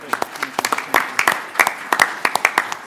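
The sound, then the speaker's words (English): Scattered clapping from a small group at a board of trustees meeting, with a few individual hands striking sharp, irregular claps that cluster in uneven bursts. “So I want to first give you your applause.”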